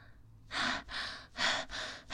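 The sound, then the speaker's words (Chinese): Heavy, gasping breaths from a person struggling for air while bleeding from the neck: five loud, harsh, rasping pulls of breath in quick succession, each with a breathy hiss, the last one cut off. “为什么要用力呼吸啊？是喘不过气来吗？”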